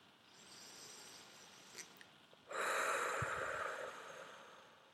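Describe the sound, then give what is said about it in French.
Slow, deep breathing during a relaxation exercise done lying down with knees bent and hands on the belly. A faint background hiss swells into one long, airy breath of about two seconds, quiet and without talk. “on va prendre déjà quelques respirations ici”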